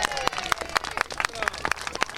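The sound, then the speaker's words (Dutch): Group applause at a live radio show event, people clapping for themselves, with sharp claps roughly every quarter second and voices over the top. “Dan is het tijd voor applaus voor jezelf.”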